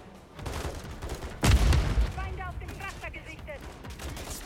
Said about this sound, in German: Der, die schießen hier durch.